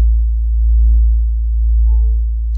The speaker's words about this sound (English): That is low-frequency sound, the sort of dull drone or hum that's been driving thousands of people around the world to distraction.